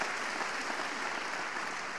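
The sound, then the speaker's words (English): Audience applause at a talk: steady, dense clapping that holds at an even, moderate level throughout, with no voices on top. “Can you give them a big clap, please?”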